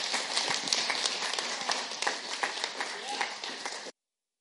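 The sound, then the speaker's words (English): Audience applause greets two guests as they arrive at a gathering: a dense, steady wash of clapping that holds at an even level for about four seconds, then cuts off abruptly. “And so I want to welcome Steve and Christine. Give them a big hand as they come.”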